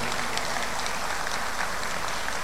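An audience at a state government security event applauds a general serving as state public security secretary, with steady, dense clapping that continues evenly throughout at moderate volume.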